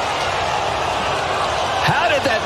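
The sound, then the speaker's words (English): A golf ball lipping out of the hole on a putt at the Players' Championship gives one brief hollow clunk and rattle near the end, over steady background chatter. “That is the sound of utter disappointment. That lip out cost professional golfer Wyndham Clark the Players' Championship last year”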